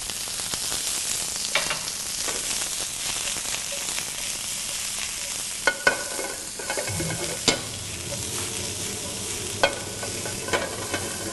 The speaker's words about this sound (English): now I'm stir frying this over high heat. I could use a wok if I like, but a large saute pan, heavy bottom, will work perfectly.